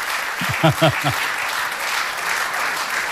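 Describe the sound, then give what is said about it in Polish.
Applause from an audience at a 55th anniversary celebration: dense, steady clapping throughout, with a brief voice speaking over it early on. “Wielkie dla Was brawa, wielki szacunek.”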